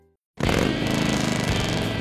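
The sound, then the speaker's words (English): Harley-Davidson motorcycle engine bursting into a loud, steady throaty rumble after a brief near-silent moment, holding a rough low-pitched roar to the end. “There's nothing like the sound of a Harley and the feel of the open road, and knowing the bike beneath you is yours.”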